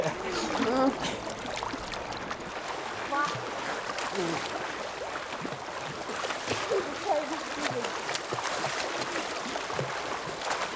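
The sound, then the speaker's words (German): Water splashes and sloshes continuously as people play in it, a steady churning wash heard under people talking. “ihr sollt nicht so planschen”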